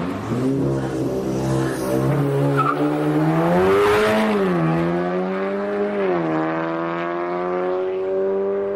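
Nissan GT-R engine with a four-throttle-butterfly intake revving: a loud, steady, harmonic engine drone that swells up and down in pitch a few times, with no talk over it.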